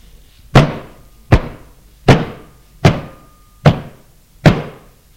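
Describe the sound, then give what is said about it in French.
Pounding knocks on a door: six heavy, evenly spaced thuds, each with a sharp attack and a short decaying ring, loud and steady in rhythm with no voices. “On se remit à frapper.”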